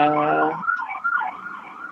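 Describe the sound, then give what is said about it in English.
An emergency vehicle siren sounds as it passes outside: a loud, steady harmonic tone gives way to a wavering, rising and falling wail that continues throughout, with no talk. “There goes another siren.”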